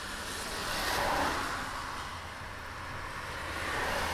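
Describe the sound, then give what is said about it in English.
Steady engine hum of a taxi cab driving, a continuous low, moderately quiet drone that swells slightly and settles, with no talk over it. “It's your cab. I'm just driving it.”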